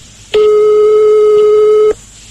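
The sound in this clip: A telephone tone sounds as a call is placed to someone's home: one steady, clear beep of about one and a half seconds that starts and stops abruptly over faint background hiss.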